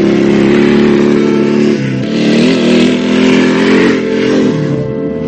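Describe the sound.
A motorcycle engine drives off across wet grass in open country, giving a loud, steady mid-pitched drone with a few shifts in pitch as it revs. No one talks.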